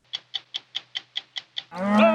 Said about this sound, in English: Cattle ranchers in Wyoming who every spring push thousands of cows along the same 70-mile route their ancestors pioneered 125 years ago.